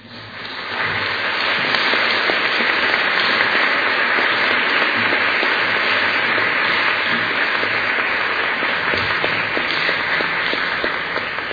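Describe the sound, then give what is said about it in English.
An audience applauds to welcome the evening's moderator, the co-abbess of the San Francisco Zen Center. The clapping swells quickly and then holds at a dense, steady level for the rest of the stretch. “Please put your hands together to welcome Zenke.”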